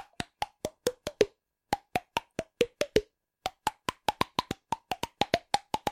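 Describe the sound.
Cheek pops, a voice imitating a well-known early synthesizer tune, come as many sharp hollow plops at varying pitches in three quick melodic phrases separated by short pauses.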